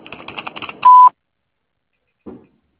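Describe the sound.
An answering machine beep marks the start of recording: one short, loud, steady tone with an even pitch. A faint, brief low sound follows a moment later.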